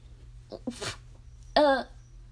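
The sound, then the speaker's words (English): A loud, forceful sneeze from a woman, a brief noisy intake of breath followed by one sharp, voiced explosive burst, heard on its own. “She could like do a karate punch with that sneeze.”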